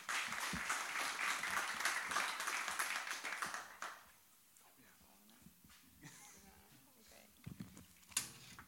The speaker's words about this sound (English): So let's give Oren and Lauren a hand.